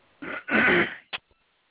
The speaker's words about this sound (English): We heard somebody clear their throat. That was me.